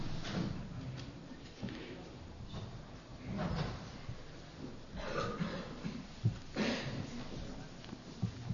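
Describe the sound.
A window being opened overhead in a church meeting room gives a few faint knocks, scrapes and a soft sliding rattle, spread irregularly over a low, quiet background.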